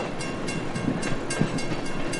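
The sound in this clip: A commuter train rolls along existing tracks, giving a steady rumble with regular rhythmic clicks from the rails.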